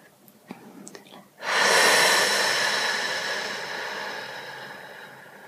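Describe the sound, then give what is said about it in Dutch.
A long exhale through the mouth on an F sound during a relaxation breathing exercise. The steady breathy hiss starts abruptly and slowly fades over about four seconds, with faint quieter sounds before it. “En adem in door je neus en adem uit door je mond op een F.”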